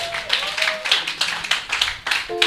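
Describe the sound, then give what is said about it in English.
Audience clapping at a church camp gathering, brisk rhythmic bursts repeating roughly every half second at a moderate level, with voices briefly audible at the start and end. “Clap for yourself for being here.”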